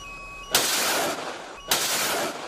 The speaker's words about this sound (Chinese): 编队临机调整作战部署，紧急采用干扰防御措施。 鱼雷告警， 水上的进来，发射， 发射，